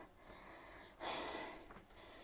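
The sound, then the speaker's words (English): A single faint breath drawn in, a soft breathy hiss swelling for about half a second midway through an otherwise near-silent stretch, with no talking. “Okay, let me breathe in a little bit.”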